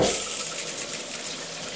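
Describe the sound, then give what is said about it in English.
Steady rushing hiss of water running from a low-flow showerhead attachment, a continuous even spray heard alone with no break in the flow. “See how little water it produces. It uses way less water than the main showerhead.”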